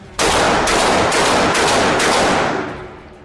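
A sustained, loud burst of rapid automatic gunfire rattles on for about two seconds with brief stutters, heard alone, then trails off into a fading echo.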